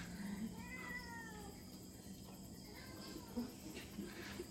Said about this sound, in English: Show the cat to the viewers, I understand.